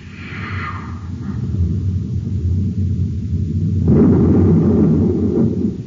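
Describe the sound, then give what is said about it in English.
A deep, roaring explosion effect from a space torpedo striking a missile in a radio drama, loud and sustained, swelling into a heavier rumbling burst midway and continuing to roar to the end. “A direct hit, Hap. We destroyed the missile. Look, the rocket. The entire peak is gone. Leveled flat.”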